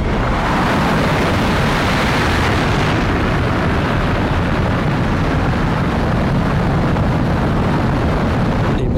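Rocket launch roar as the main engine ignites and the boosters fire: a loud, dense, continuous rumble that stays steady and powerful for the whole clip, with no voices.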